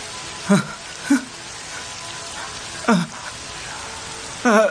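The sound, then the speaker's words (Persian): Heavy rain gives a steady, dense hiss throughout, broken by a few brief voice-like sounds. “بارون شدیده، کجا برید؟”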